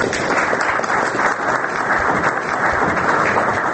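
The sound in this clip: Applause from participants of a political debate: dense, continuous clapping at an even, fairly loud level throughout, with no breaks and no clear voices above it.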